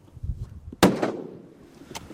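A single sharp rifle shot, fired from a slowed boat while hunting at dusk: one loud crack with a decaying tail that stands out against quiet surroundings.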